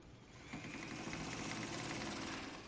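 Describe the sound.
A sewing machine runs with a soft, even mechanical whir. It builds up after a brief quieter moment and then holds steady to the end, fairly faint overall.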